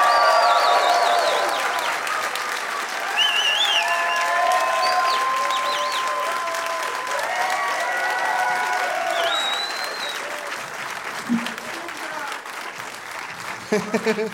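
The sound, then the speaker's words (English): Sustained audience applause with some vocal cheers greets three guests as they are introduced. The clapping is dense and steady and eases slightly toward the end. “Please give it up, everybody, for Dave Shumka, Graham Clark, and Ngaio Bealum.”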